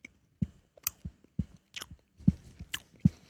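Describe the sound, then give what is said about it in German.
Biting and chewing into peach-flavoured food: a series of soft, moist crunches and mouth noises recurring irregularly, quiet and close, with no talk. “Los, richtig draufbeißen.”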